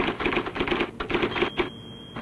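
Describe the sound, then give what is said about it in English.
An IBM Selectric electric typewriter types a rapid run of crisp, clattering keystrikes in an even rhythm, pausing briefly partway through, with no speech. “The IBM Selectric, a typewriter so different, only the alphabet remains the same.”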